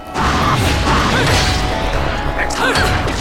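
Video game combat hits land on a sword-and-shield enemy with a flame body: harsh crashing impacts and metallic whacks mixed with quick swooshes, loud and continuous with scattered bright chiming effects.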